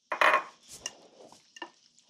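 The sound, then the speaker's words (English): Raw eggs are stirred into macaroni noodles with sour cream, starting with a brief burst of wet mixing followed by a few faint, sparse clicks and scrapes of a utensil against the dish. “Sour cream makes it creamy, and eggs bake it up like a souffle. All right, so in goes the eggs.”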